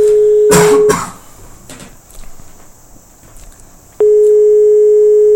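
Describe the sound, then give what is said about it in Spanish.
Telephone line tones sound during a call to a museum: a loud steady tone about one second long, a pause of roughly three seconds with faint rustling, then the same tone resumes and holds to the end. “Vamos a ver, que estamos llamando al museo.”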